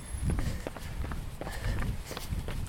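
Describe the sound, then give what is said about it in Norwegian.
Light running footsteps during a training session, landing in a quick, steady rhythm of many soft thuds over constant background noise. “Du springer veldig lett ut her.”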